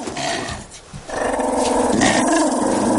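A dog growls at a child hiding in a corner of a cave: a low, continuous rumbling growl that dips briefly, then swells back and holds steady to the end.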